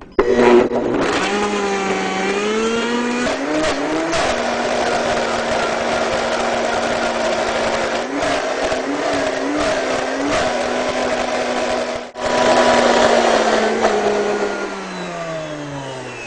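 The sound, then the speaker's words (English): A blender whirs as it purées ingredients into a creamy mix, a loud, steady motor drone with slightly wavering pitch, a brief cut-out near the end before it resumes, then winding down in pitch as it stops; no talking. “So what you want to do is just blend your ingredients until everything is a nice creamy texture.”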